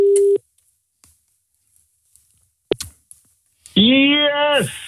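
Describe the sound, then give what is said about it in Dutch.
A short steady telephone tone opens, followed by a few faint clicks and one sharp click as a call is placed to a poll winner. A loud voice then answers over the line. “En wij gaan bellen met de winnaar van deze poll.”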